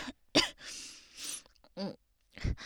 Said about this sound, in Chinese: 因为刚才没憋住，不小心在水道呼吸了一下，就呛住了吗？